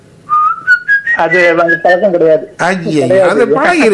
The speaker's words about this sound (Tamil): ஒரு வரி ரெண்டு வரி விசில் அடிப்பதுண்டா? விசில்